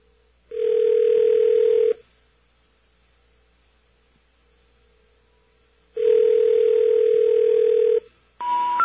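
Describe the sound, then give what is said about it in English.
A telephone dial tone: a steady, unbroken electronic tone plays twice with silence between, followed by a brief burst of different tones at the very end. “Get us a dial tone here, please. There we are.”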